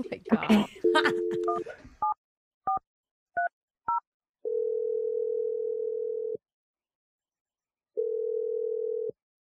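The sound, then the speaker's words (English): A telephone number is dialed in touch-tone beeps: a burst of noise, then a handful of short dual-pitched tones. Two long, steady ring tones follow, separated by a pause. “I'm gonna dial the number right now”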